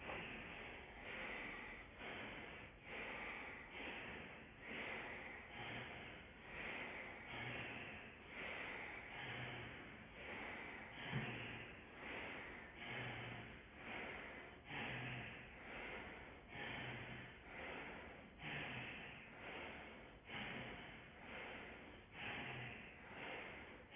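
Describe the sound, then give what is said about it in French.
Faint breathing through the nostrils during a pranayama exercise, with many soft, airy inhales and exhales that repeat in a steady, even rhythm throughout. “vous expirez par les deux narines et tout de suite vous reprendrez à droite, inspire par la narine droite.”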